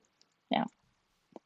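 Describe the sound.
A frame lock folding knife clicks open, with one short, crisp click followed a moment later by a fainter second click, alone against near silence.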